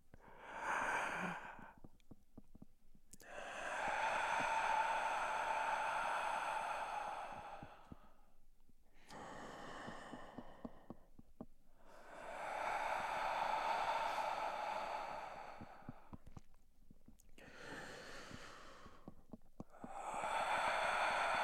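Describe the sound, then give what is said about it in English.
Slow, deep meditative breathing: long, airy inhales and exhales swell and fade in roughly three broad cycles, with loud, drawn-out phases alternating with quieter, softer breaths. “And now what we're going to do is inhale from there and then exhale inwards across our body.”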